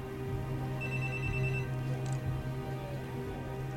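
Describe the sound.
Faint telephone ringing after a call is placed, a thin electronic ring over a steady low hum.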